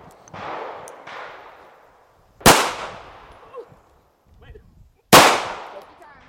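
Handgun shots fired at a silhouette target on a shooting range, several sharp cracks with ringing decays about a second or more apart, two much louder than the rest, with faint clatter between.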